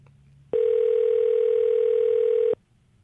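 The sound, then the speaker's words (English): Ringback tone of an outgoing telephone call waiting to be answered: a single steady, loud tone lasting about two seconds that starts and stops abruptly, framed by a faint low hum. “Pick up the phone. She's not going to pick up the phone.”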